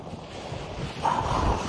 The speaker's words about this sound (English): The wind.